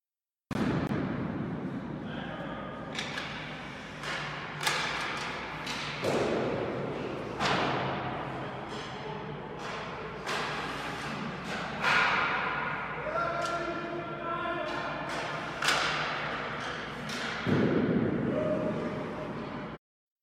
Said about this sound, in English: So now if you're thinking to yourself, that's just another audio clip of someone taking shots on goal, you would be right.